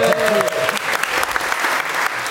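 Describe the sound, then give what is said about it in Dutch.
Crowd applause for a guest at a live tech discussion event, loud at first and then a steady, dense clatter of many hands. A short voice is heard at the very start. “Rondje applaus voor Krijn, mensen.”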